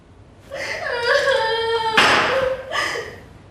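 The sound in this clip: A woman cries in distress: drawn-out, wavering wails that break into a harsh, breathy sob midway, then a few shorter sobbing cries that trail off.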